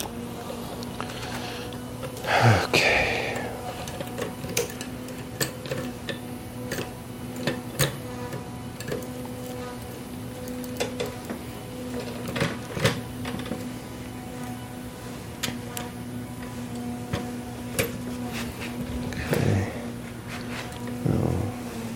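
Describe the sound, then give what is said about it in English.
Sharp mechanical clicks as a bicycle wheel is refitted after a hub overhaul, with the axle nuts tightened by hand on a bike turned upside down. Many irregular ticks and small rattles sound over a low steady hum. “Now I'll put the wheel back on.”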